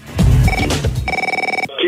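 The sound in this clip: A telephone rings for an incoming call with a brief electronic ring that trills in rapid pulses and cuts off abruptly, preceded by some muddled lower sounds.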